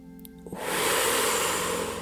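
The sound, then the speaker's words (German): A deep breath drawn in through the belly, heard as one long, hissing inhalation that rises quickly and holds steady for about a second and a half. “Tief in den Bauch einatmen, kurz die Luft anhalten”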